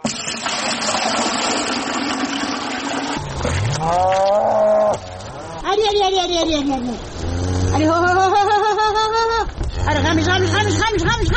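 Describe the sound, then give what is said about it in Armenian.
Cattle and calves low beside a cowshed at a remote highland farm. After talk at the start, several long, loud, wavering moos follow one another over a constant low background hum. “Ղամիշին, Մարալին, Սիրունին ու Հորթերին գայլերից պաշտպանող անասնագոմն”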